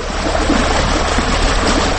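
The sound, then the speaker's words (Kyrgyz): Water flowing in an irrigation canal, a steady, loud rushing and gurgling wash that holds an even level from start to finish. “Азыркы ошол лотоктон аккан суудан жалаң Кыргызстан пайдаланат.”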